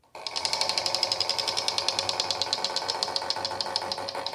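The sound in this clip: A game show prize wheel spins, sending out a rapid, evenly spaced train of sharp plastic clicks that runs steadily and fairly faintly from start to finish with no talk over it.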